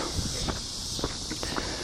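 Footsteps of someone out on a short walk: a steady rhythm of light, soft steps, faint beneath a constant hiss of background noise.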